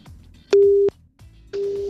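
Telephone line tone after the call button is pressed: a single steady beep, a short pause, then a second, softer beep of the same pitch. No speech over it.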